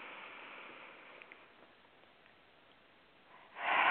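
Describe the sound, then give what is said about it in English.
A nasal inhale during a guided breathing exercise: faint breathy hiss that swells into a strong, airy rush in the final half second. “Breathe in through the nose.”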